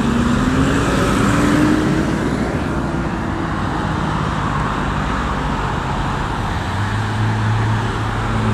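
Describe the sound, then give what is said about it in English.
A garbage truck drives past with a loud, steady rumble of heavy engine and road noise that fills the whole clip without easing, and no voices are heard. “Oh crap, here's a garbage truck.”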